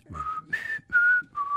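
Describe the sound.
Someone whistles a radio show's theme tune: a short phrase of four clear, held notes that jumps up after the first and then steps back down, soft and alone.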